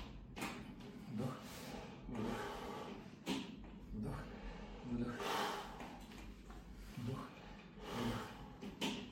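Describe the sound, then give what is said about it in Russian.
Breathing in and out during a guided breathing exercise: a few soft, airy inhales and exhales, slow and evenly spaced, at a low level. “Вдох. Выдох. И еще вдох. Выдох.”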